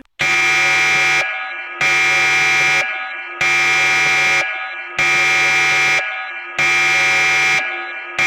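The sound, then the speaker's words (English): A home panic alarm blares in loud, harsh electronic blasts, each about a second long and separated by brief silences, repeating steadily around six times with a buzzing, horn-like tone. “But it sounds very different than the panic alarm. It, like I said, slower.”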